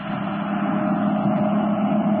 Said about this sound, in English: there's a car coming along the road.